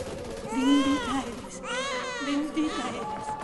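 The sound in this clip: An infant crying in two drawn-out, wavering wails separated by a short pause, loud over a steady low background hum.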